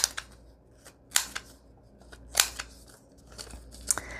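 Scissors snipping rounded corners on paper for a booklet made from a paper bag: a few quick, crisp, faint cuts spaced irregularly, with light paper rustling between them.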